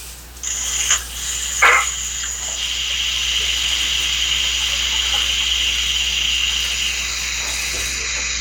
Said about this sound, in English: Let me just rinse my hands real quick.